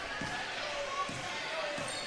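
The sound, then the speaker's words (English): A basketball bounces on the court during a girls' game against Cullman Christian as a player dribbles around. A few slow, dull thuds sound under steady crowd noise. “Phoebe will dribble around.”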